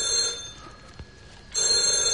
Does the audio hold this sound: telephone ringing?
yes